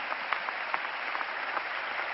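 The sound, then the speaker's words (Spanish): Audience applause for governors at a political rally: steady crowd clapping, fairly faint, holds at an even level with a few sharper claps standing out. “Y quiero pedir un aplauso enorme para todos los gobernadores que nos acompañan.”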